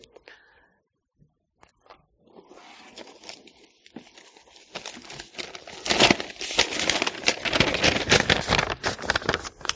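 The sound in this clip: A piece of paper is handled during a sermon. It starts with a few faint ticks and soft rustles, then grows into louder, busier crinkling and crumpling that fills the second half.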